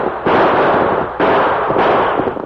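Gunshots in a shootout with outlaws: three loud, sharp cracks at irregular intervals, each trailing off into a long, rumbling decay, with no voices between them.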